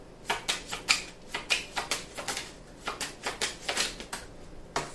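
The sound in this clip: Tarot cards are shuffled and drawn from a deck, a run of many quick, crisp flicks and soft slaps in an uneven rhythm. The sound is moderately loud and heard alone, without talk.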